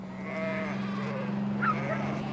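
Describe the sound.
Sheep bleat as they trot out of a livestock transporter, a few wavering calls rising over a steady low hum.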